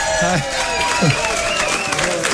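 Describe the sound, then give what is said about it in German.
Applause and cheering from a live audience welcoming a comedian onto the stage: dense, steady clapping for the whole moment, with shouting and whooping voices rising over it. “Hallo, vielen Dank für den Applaus.”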